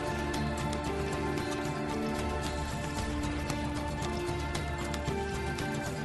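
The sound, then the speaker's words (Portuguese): Soundtrack music from the video game Assassin's Creed II plays at a steady, full level throughout, with dense sustained tones over a faint rhythmic pulse. “Eu vou subir rapidinho aqui o BG, só pra galera ver do que a gente tá falando. Isso aqui é a trilha do Assassin's Creed. Eu acho que é do 2, se eu não me engano.”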